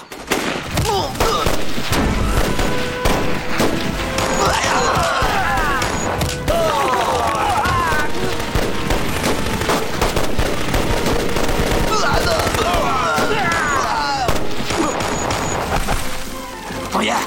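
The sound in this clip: Soldiers' guns fire in dense, rapid bursts that continue loudly without a break, with shouting voices mixed into the clatter.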